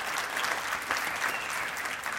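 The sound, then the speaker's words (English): Audience applause for a speaker, a steady wash of many hands clapping at moderate volume, even from start to finish. “Really makes me feel good that you're applauding now that it's over”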